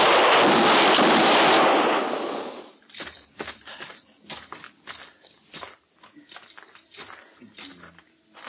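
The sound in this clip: Gunfire in a radio drama western shootout: a loud, sustained blast of shots lasting over two seconds, followed by quieter talking.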